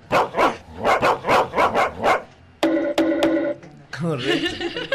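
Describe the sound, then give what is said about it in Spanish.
A dog barks in a quick, evenly spaced string of sharp, loud barks, followed by further mixed sounds. “Agarre el perro. Póngale bozal.”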